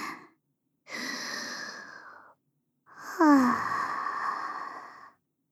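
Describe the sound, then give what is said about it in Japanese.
A deep breath, heard as two long, soft, airy breaths separated by silence, the second one longer and slightly louder, with no talking. “一回深呼吸しますね。”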